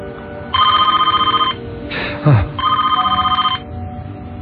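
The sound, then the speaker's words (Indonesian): A telephone bell rings in two rapid, trilling bursts of about a second each, separated by a short gap in which a brief downward-sweeping sound passes. “terdengar suara telepon lagi.”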